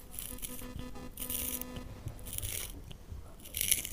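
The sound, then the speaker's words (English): A pencil sharpener grinds in a few faint, scratchy, crunching bursts separated by brief gaps, with no talk. “It's a pencil sharpener.”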